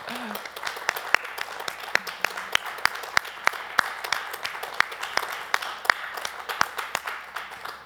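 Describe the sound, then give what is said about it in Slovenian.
Applause from a small audience at a talk about Slovene dubbing of cartoons, with individual claps sharp and distinct at a brisk, steady pace over a soft bed of clapping. “Najprej aplavz za vajno, res veliko delo.”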